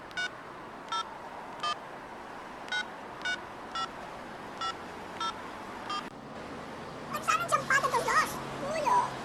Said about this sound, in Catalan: Truco a la meva dona i li dic que passaré a recollir-les per la trobada.